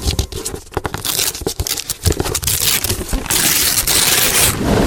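Wrapping paper is torn and crumpled as a Christmas gift is unwrapped, with many loud, irregular rips and crinkles that settle into steadier rustling near the end.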